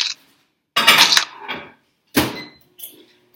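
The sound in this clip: Plate handled while a tortilla is served for a breakfast burrito made in the microwave: a few loud clattering and scraping knocks of dishware separated by short silences, with no talk.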